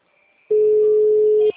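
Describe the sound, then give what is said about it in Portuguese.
A single clean telephone tone sounds for about one second while a customer is being called. The pure, steady pitch stops abruptly and is followed by faint background noise. “Estamos ligando. Vamos ligar um por um para a gente tentar falar com o cliente.”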